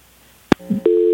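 Telephone busy tone after a caller disconnects: a sharp click and a short low murmur, then a loud, steady electronic tone that holds to the end.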